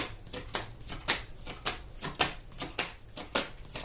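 Tarot cards being shuffled during a reading, a steady run of sharp, papery bursts repeating about twice a second, each with a crisp high rasp.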